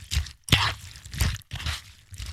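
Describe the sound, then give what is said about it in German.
Muesli stirred with milk in a bowl: five separate crunchy, wet scraping bursts in an uneven rhythm, fairly loud, with no voices. “Richtig, Müsli mit Milch umrühren.”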